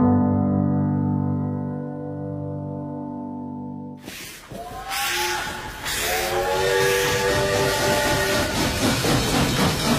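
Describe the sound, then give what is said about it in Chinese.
A train whistle sounds a long, steady chorded tone for about four seconds, then breaks into loud rumbling rail noise with hiss and more tonal whistle notes drifting over it. “伴随着火车鸣笛的声音”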